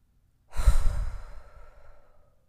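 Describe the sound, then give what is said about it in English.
A deep breath is let out as a loud, noisy exhale. The single heavy sigh starts abruptly and trails off gradually over about two seconds. “Take a deep breath. So wherever you are, pause a moment and take the deepest breath you've taken all day. Make sure you make some noise when you exhale.”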